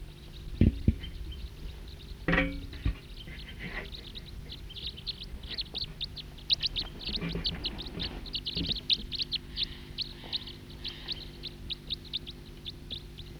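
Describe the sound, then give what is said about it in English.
A flock of about ten or twelve birds calls in many short, high chirps, sparse at first and then thickening into a quick, busy run, heard without talk. “Here comes some more type 2 birds.”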